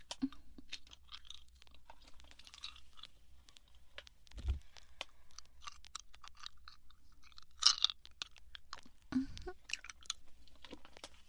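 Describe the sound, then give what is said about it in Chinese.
Someone chews a sweet with faint, crunchy bites and soft mouth noises, many small irregular crunches spread quietly throughout. “本来是要给你吃的，那你不想吃，我给你吃了。”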